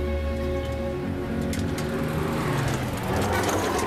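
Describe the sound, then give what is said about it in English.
Truck engine rumbling as it nearly knocks down a man carrying two bin bags: a steady, loud, low drone that holds for about four seconds, with a slight surge toward the end. “Carrying two bin bags, Joel is nearly knocked down by a truck.”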